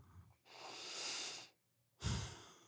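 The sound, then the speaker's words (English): A person takes a deep breath at the start of a prayer: a long, airy inhale swelling and fading, then a brief pause and a stronger, shorter exhale. The breathing is quiet and there is no talk. “we just want to take a moment to take in a deep breath and to recognize that as we begin.”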